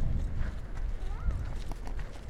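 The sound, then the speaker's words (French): A pony's hooves clip-clop as it pulls a small yellow and green cart through a public garden. A few faint, irregular hoof knocks sit among a low outdoor murmur. “Il y a une sorte de petite carriole jaune et verte avec un poney.”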